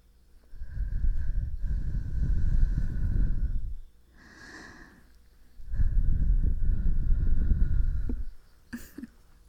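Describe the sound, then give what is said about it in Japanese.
Breath blown straight onto a microphone: two long, loud rushing gusts with a softer, shorter puff between them, ending in a brief faint click-like noise. “息吹きかけるよ。”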